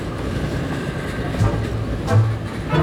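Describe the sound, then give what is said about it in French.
A tram arrives with a steady low rumble and faint tonal hum that swells slightly toward the end, without distinct voices. “Je serai content d'être à la maison. Enfin, voici notre tram.”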